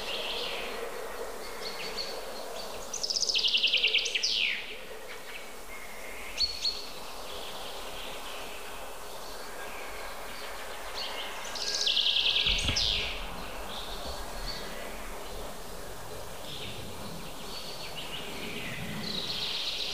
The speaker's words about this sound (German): Jetzt sind wir Zeuge eines klassischen Kontergesanges.